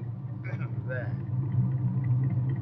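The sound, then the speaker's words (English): Truck motor starting: a low, steady rumble that swells slightly and settles into a continuous drone, with a few brief vocal sounds early on. “hey, I'll tell you what you do, Julius. You go start the motor.”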